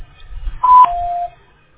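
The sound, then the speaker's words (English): A voicemail beep sounds as a short electronic tone that steps down to a slightly lower pitch and holds briefly over faint, quiet line noise. “you can leave a message after the beep.”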